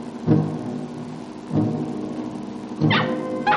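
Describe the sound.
A dog barks in an Indian camp in a desert valley: several deep, rough barks, well spaced and alone, with no talk.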